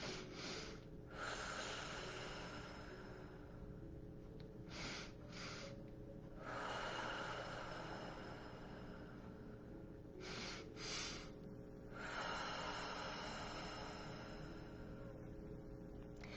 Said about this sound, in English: One, two deep in, two breaths in, one breath out.